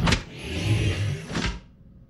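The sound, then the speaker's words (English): Car doors on vehicle 278 unlock on command: a sharp mechanical clunk, a short whirring actuator hum, and a second clunk, followed by quiet. “Vehicle 278, unlock doors.”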